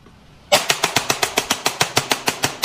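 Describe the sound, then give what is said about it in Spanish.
Pistol fire in burst mode: a rapid, evenly spaced string of many sharp, cracking shots that begins abruptly after a brief quiet lead-in and keeps a steady rhythm to the end. “Es pistola en ráfaga. Pistola en ráfaga.”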